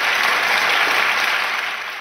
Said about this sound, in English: Round of applause for our panelists here in the second wave.